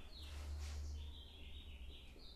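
Birds singing in springtime, with faint high chirps and short warbling sweeps over a low, rumbling background noise.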